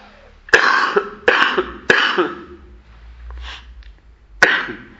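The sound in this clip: Coughing: three harsh coughs come in quick succession, and after a short pause a fourth follows. Each is a loud, rough burst that trails off quickly.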